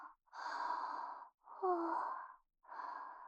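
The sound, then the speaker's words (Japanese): A person yawning softly: three long, breathy exhalations separated by short silences, the middle one carrying a faint voiced groan. “さっきからあくびばかりごめんよ。”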